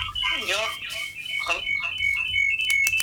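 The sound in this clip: A telephone rings with a steady, high electronic tone that holds through the whole stretch while people talk over it.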